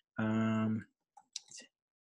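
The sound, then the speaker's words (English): A computer keyboard clicks as show notes are typed. A short hummed tone comes first, then a few quick, light key clicks in a brief burst. “I'll type it right into the show notes right now.”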